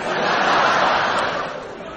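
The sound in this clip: A virtual audience sound effect: a dense crowd cheer, a broad continuous roar of many voices that holds steady, then eases slightly toward the end.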